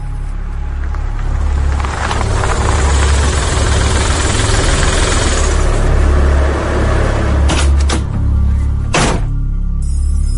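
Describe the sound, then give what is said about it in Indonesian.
A car engine idles after the car has stopped, a steady low rumble with constant vibration throughout, broken by a few brief sharp knocks late on. “Aku memutuskan untuk berhenti, keluar dari mobil dan berharap bertemu seseorang.”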